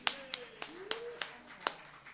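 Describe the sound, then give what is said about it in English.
Sparse hand claps from an audience at a morning gathering, about six sharp separate claps spread evenly through the stretch rather than a full round of applause, with a faint steady tone beneath. “Wonderful, give him a hand.”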